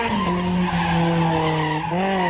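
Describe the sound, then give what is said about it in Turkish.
Tires squeal loudly as a car drifts on a road open to traffic. A continuous, piercing skid sounds alone over a low engine drone and holds steady for a couple of seconds. “Trafiğe açık alanlarda drift yapan sürücüler”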